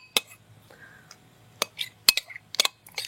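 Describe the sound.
Several sharp clinks of a utensil against a bowl while coleslaw ingredients are mixed together, spaced irregularly with quiet gaps between.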